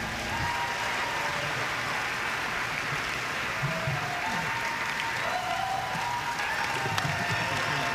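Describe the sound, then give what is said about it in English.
Audience applause, a dense, continuous wash of many hands clapping that holds at an even level for the whole stretch, with faint crowd murmur underneath. “Let's have a big round of applause for Mr. David Polkingham once again.”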